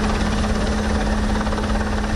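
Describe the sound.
Steady helicopter rotor and engine drone from a sea search-and-rescue exercise, loud and unbroken throughout, with a constant low hum beneath and no voices.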